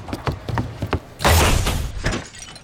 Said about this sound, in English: I tripped on my own feet and fell over